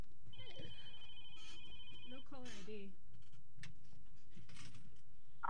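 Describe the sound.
An incoming call makes a telephone ring: a single steady, electronic-sounding ring lasting about two seconds, followed by scattered small knocks and clicks.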